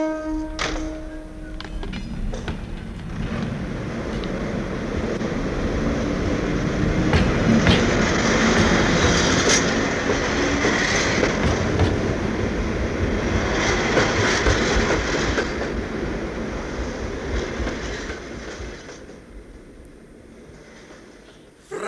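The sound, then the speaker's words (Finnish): An express train departs with a dense, rumbling roar and faint rhythmic clatter of wheels on rails. The sound swells to a steady peak, then thins out toward the end, with no voices. “Buffalo pikajuna lähtee. Kaikki matkustajat valmiin.”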